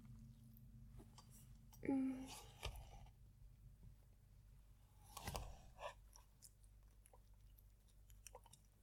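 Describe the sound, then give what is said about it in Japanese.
Close-up chewing, soft wet clicks and smacks of a mouth working food, quiet overall with a couple of louder, busier bursts amid faint breathy sounds. “くちゃくちゃ音聞いて。ね、聞いてよ。”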